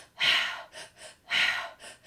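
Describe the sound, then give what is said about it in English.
A three-part breathing pattern is demonstrated: in through the belly, in through the chest, then out through the mouth. It runs as two cycles, each a strong airy gasp followed by two softer breaths, with no talking. “You breathe in through your belly, in through your chest, out through the mouth. It sounds like this.”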